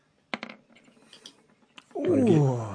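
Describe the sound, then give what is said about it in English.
A twelve-sided die rolled on a table during a tabletop role-playing game: a sharp clatter of quick hard taps, then scattered small clicks as it settles, before a voice exclaims at the end. “The dice. 1d12. Let's roll it.”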